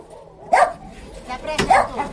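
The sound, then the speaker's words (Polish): A fearful, shelter-born dog barks twice, two short, sharp, mid-pitched barks spaced about a second apart over a low background murmur. “To jest pies, który nazywa się Batman, prawdopodobnie urodzony w schronisku”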